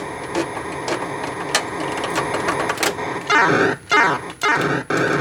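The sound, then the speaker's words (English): In a video game, a spaceship docks with a fueling ship to a run of mechanical clicking and whirring, then three loud, sweeping electronic bursts separated by brief gaps. “I gotta dock with that thing. Alright, just docked with the fueling ship.”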